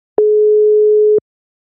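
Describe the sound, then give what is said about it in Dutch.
A phone call being placed sounds one steady, mid-pitched electronic tone lasting about a second, clean and alone before it cuts off. “ik ga haar nu bellen”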